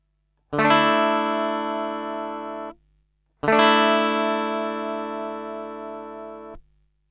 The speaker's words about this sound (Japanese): 続いて D のローコードの状態から1弦2フレットを離してみましょう。するとこのような音が出ます。